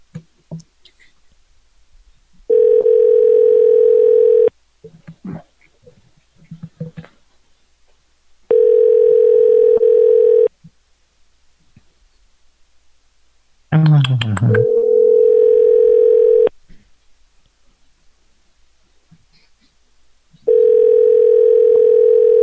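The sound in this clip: Steady ringback tone of an outgoing telephone call sounds in four even bursts of about two seconds each, separated by longer gaps of near silence.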